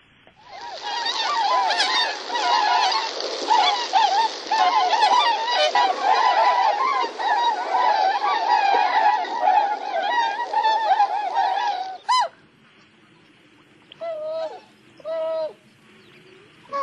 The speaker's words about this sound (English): It's more of a soft moan and just a beautiful sound. Well, and actually, let's take a listen, because I do have some of that audio as well. This is the tundra swan.